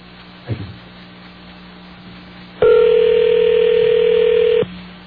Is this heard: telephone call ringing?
yes